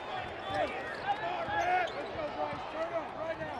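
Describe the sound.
A basketball is dribbled on the court during a tied college game with the Cowboys: sharp rhythmic bounces under a steady murmur of crowd noise and voices.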